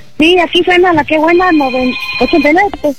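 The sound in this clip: After a number is dialed, a telephone rings with a steady, high electronic tone for about a second, heard under continuous talking.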